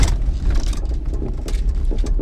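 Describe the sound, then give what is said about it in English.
A car engine runs, heard from inside the car, as a steady low rumble with broad, uneven noise and small surges throughout. “It's crazy how we always meet in here. In my car.”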